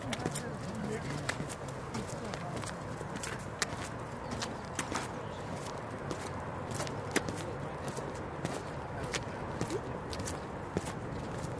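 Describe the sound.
Footsteps walk along a path past the Maschsee lake and a bus stop in Hannover. Many crisp, evenly spaced steps tap over a steady background hum.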